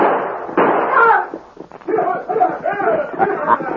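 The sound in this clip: Gunshots in a radio western drama set on a desert trail with Apaches: a sharp shot bursts out early, and men's voices then talk over the scene.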